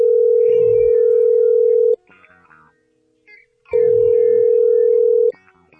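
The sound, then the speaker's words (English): A steady, mid-pitched telephone tone sounds as a call is placed, coming in two long, even bursts of about two seconds each with a quiet gap between them and no talk over it. “Matter of fact, call somebody right now”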